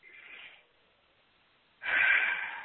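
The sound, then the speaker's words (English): A deep breath taken during a guided session: a soft, breathy rush fades away, then after a quiet pause a louder and longer airy rush of breath follows. “Thank you, and take a breath.”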